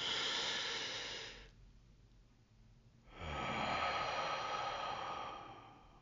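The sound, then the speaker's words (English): A deep human breath: two long, airy breathing sounds separated by a quiet pause of about a second and a half, each fairly loud and smooth, with no talking. “We'll go ahead and take one more breath.”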